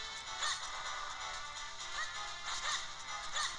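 Sword hits on a boss in a video game, a few sharp, swishing strikes with bright edges that recur at uneven intervals over a steady background hum, faint overall.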